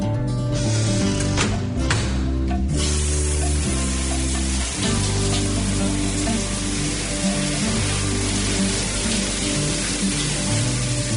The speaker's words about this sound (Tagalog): The shower's cold.